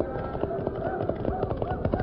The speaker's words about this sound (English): Now run, Silver! Run! With even more effort and speed, the big stallion leaped forward, heading toward the hole in the left wall where Dan had gone.